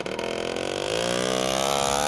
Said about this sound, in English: And outside is Rafael's motorbike.